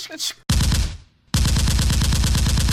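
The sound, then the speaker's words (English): Rapid-fire gunfire sound effect, standing in for shotgun blasts, with loud dense bursts of shots in two runs separated by a short gap. “Shots fired. And this is where I'm going to insert the shotgun sounds.”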